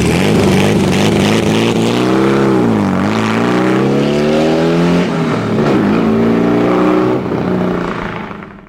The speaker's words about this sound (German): Es handelt sich um das erste Serienfahrzeug von Porsche, und den Vorgänger des 911.